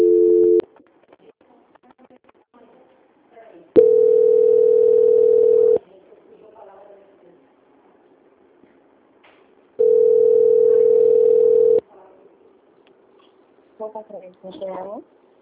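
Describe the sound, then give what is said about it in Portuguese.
Telephone tone after a dropped call: two long, steady, low-pitched beeps separated by a quiet gap, with a clipped tone at the very start and faint scattered sounds between and after. “A ligação caiu.”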